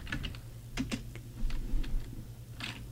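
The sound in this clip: Typing on a computer keyboard as someone enters a name, heard as a faint, irregular patter of several quick key clicks over a low steady hum.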